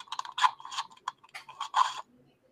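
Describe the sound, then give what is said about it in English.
A little pet hamster gives a quick string of raspy, chattering squeaks in short uneven bursts, fairly faint, before falling quiet near the end. “So, but I got this little hamster, and he makes terrifying sounds.”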